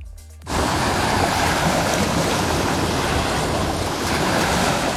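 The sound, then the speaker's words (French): Sea waves breaking on a beach. A loud, even rush of surf starts abruptly after half a second and holds steady throughout, with no voices. “Là, c'est la mer.”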